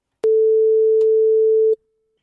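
A telephone ringing tone sounds as a call is placed: one steady, clear, mid-pitched tone holds for about one and a half seconds and then stops, with nothing else around it.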